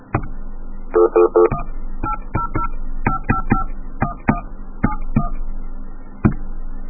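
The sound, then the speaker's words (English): Telephone line tone with DTMF dialing tones cutting through it: a steady low hum broken by a quick cluster of tones, then a series of short, sharp dial beeps at uneven intervals. “Or you get a tone, and then you DTMF, and it, like, breaks the tone.”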